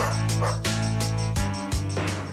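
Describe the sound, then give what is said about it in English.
A voice imitates a dog barking with four deep woofs in an even rhythm over a steady background tone. “I am your doggy. Woof, woof, woof, woof.”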